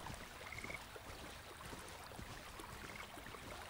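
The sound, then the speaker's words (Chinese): A stream flowing: steady, soft babbling and rushing of water that stays even and continuous throughout, quiet and without voices. “就在小溪边坐下，一起听会儿溪流声吧。”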